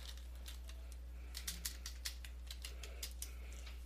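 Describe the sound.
Fingers type on a computer keyboard, producing a faint, irregular run of light clicks over a steady low hum.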